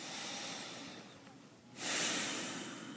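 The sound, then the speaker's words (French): Deep breathing through the nose during a relaxation exercise, heard as soft, airy hiss with no voice: a long gentle breath, a brief lull, then a stronger, louder breath. “on commence par prendre trois respirations profondes.”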